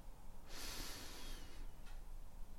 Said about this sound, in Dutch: Adem rustig in door je neus en rustig uit door je mond. Adem in.